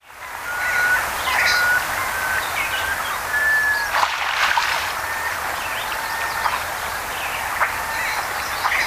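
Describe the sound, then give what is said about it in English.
An American crow call sounds as a brief harsh burst mid-clip over a steady rushing background, with thin whistled bird tones scattered around it. “American Crow.”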